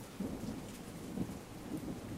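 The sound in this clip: A thunderstorm pours steady, dense rain while low thunder rumbles continuously underneath, loud and unbroken for the whole moment.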